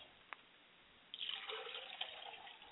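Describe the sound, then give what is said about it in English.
Water poured onto the ground as a libation during a ceremony makes a soft, continuous splashing rush with small splatters. It starts abruptly after near silence and stays faint. “And finally, I pour libations to the south, and we say, Ashe. Ashe. And ladies and gentlemen, I periodically let the water hit the ground”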